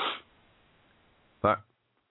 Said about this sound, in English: Excuse me. We need a sneeze button.